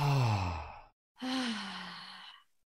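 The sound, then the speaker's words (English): Long, audible sigh-like exhale during a guided breathing meditation, in two parts: a voiced, breathy first release, a short pause, then a longer airy exhale fading out. No talk over it. “Nice, beautiful exhale.”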